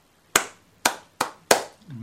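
Hand clapping, four sharp, bright claps with uneven spacing, each cracking out and decaying quickly over an otherwise quiet background.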